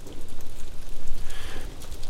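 Cold rain falls in a dense, steady hiss of patter that runs continuously without pause, with no voices.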